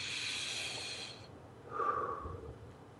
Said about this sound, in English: I like to start with just taking a couple of nice deep breaths.